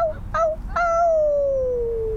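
A dog howls in one long, drawn-out tone that slides steadily downward in pitch, after a couple of shorter cries at the start, all over a low, steady background rumble.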